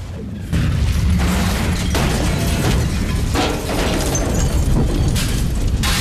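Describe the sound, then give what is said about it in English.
Nearby cars and fuel explode into a huge fireball in a parking lot: a sudden loud burst after a short quiet moment, then a sustained, dense roar with crackling, rumbling surges that stays loud throughout. “Nearby cars and fuel explode into a huge fireball.”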